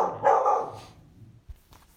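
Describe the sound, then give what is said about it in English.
A household dog gives one loud, rough bark, followed by a couple of faint thumps and a short quiet stretch with no talking. “Oh, there's our dog.”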